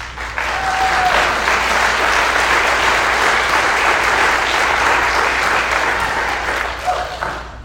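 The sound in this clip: Audience applause welcoming a guest speaker: dense, steady clapping that holds at an even, loud level for the whole stretch, easing only slightly at the very end.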